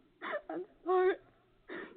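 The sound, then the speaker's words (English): A young daughter crying in a tantrum gives four whimpering sobs, the third longest and most tonal, with short gaps of quiet between them. “I'm afraid your daughter is having a tantrum.”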